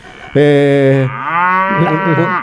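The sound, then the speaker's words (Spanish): A cow moos loudly in one long call, beginning with a rich, steady low tone that then turns wavering and rough in its second half before ending abruptly. “Te vas a hacer cargo si la vaca se emborracha, ¿no?”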